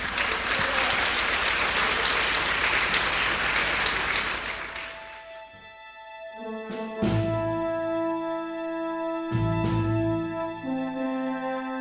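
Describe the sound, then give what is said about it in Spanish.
Congregation applause in a church: dense, steady clapping for about five seconds that thins out and gives way to sustained instrumental music. “Demos un aplauso a Rey.”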